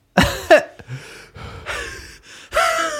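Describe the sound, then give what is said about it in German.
Heavy breathing straight into a microphone comes as a few loud, rough breaths and gasps separated by short pauses, close and airy, with no talking. “ich mach das, wenn ich nicht so fett ins Mikro atme, während du redest.”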